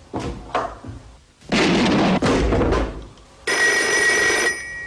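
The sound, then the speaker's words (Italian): An old-style telephone bell rings loudly from a telephone on a table, in several harsh, rattling bursts separated by short gaps, with no talk over it. “Ecco lo squillo del telefono”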